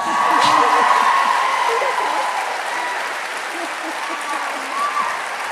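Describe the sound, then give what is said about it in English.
Loud, sustained applause from an audience, many of them Wellesley alumni, after a question to Hillary Clinton about her political future. The clapping is steady and dense throughout, easing slightly toward the end. “It was a question about Clinton's political future that drew the biggest applause. Many in the audience were Wellesley alumni.”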